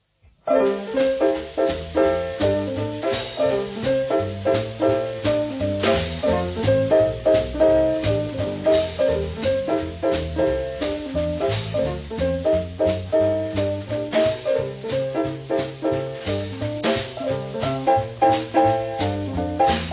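Jazz riff tune of the kind once played by most jazz and dance orchestras: a dense band sound with a short melodic figure repeated over a steady beat, loud and continuous throughout with no talk.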